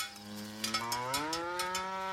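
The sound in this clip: A cow grazing in a pasture gives one long, loud, low moo with a strong voice. The rich, steady tone bends slightly upward partway through and sounds alone, with no other noise.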